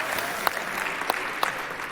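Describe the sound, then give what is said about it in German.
Audience applause rewarding a delivered orange sofa at a hacker congress assembly. The clapping is steady and dense, with three sharper, louder claps standing out. “Also das ist mindestens ein 10-Punkte-Applaus wert.”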